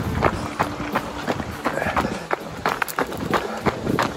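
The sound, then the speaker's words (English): Footsteps of a person running on a park trail: many quick, evenly spaced footfalls in a steady jogging rhythm over faint outdoor background noise. “running through Beau Park, running behind.”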